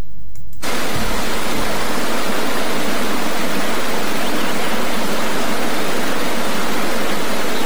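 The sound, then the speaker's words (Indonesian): Flowing water of a stream makes a steady, full rushing hiss that begins after a brief quiet moment and continues evenly to the end, with no voices. “memandang keindahan alam sembari menikmati aliran air yang mengalir sangatlah menyejukkan hati dan tentu memanjakan mata”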